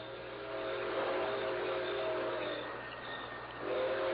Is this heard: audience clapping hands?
no